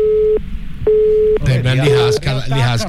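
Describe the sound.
A telephone line signal sounds during a call: two steady mid-pitched beeps with a pause between them. People then talk over the line.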